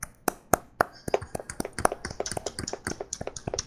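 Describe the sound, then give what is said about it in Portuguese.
Fingers tap on a microphone, making many sharp, quiet knocks at an irregular pace that grow denser toward the end. “E eu bati no meu microfone.”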